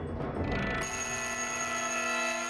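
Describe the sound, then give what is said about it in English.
A timer ringing in a jewelry store during a robbery: a low rustle gives way, just under a second in, to a bright, sustained metallic ring of steady high tones that continues unbroken. “When the timer goes off”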